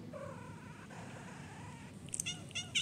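A cat making odd sounds, a quiet drawn-out meow-like tone followed by a few short, high chirping squeaks near the end, faint throughout.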